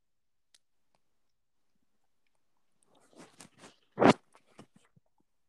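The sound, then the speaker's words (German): Biting into and chewing a brown food: near silence, then a few faint crunches building to one loud crunchy bite, followed by several soft, scattered chewing clicks that fade out. “Wir beißen jetzt mal rein.”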